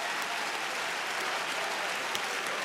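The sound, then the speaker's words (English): A church audience claps during worship, a dense, continuous wash of many hands with a steady, even texture and no distinct individual claps or voices, moderately loud throughout. “Somebody ought to clap their hands, because when you worship here,”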